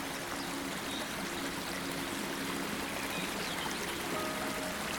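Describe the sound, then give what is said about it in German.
Spring water pours from a stone into a large basin, a steady, continuous rushing and trickling that holds an even level throughout with no breaks. “Die Quelle fließt in ein großes Becken und ergießt sich anschließend in sein Flussbett.”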